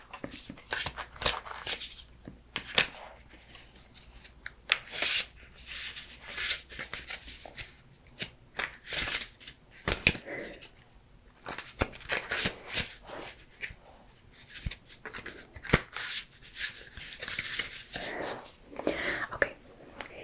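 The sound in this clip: Cards shuffled and mixed by hand before picking cards for a star-sign reading: continuous riffling, rubbing and flicking bursts in an uneven rhythm, with a soft whispered voice heard throughout.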